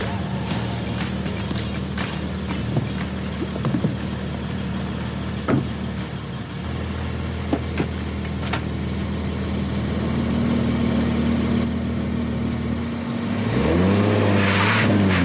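A 2024 Nissan Z sports car engine idles with a steady low hum and a few sharp clicks, then revs up loudly near the end as its pitch climbs and holds higher.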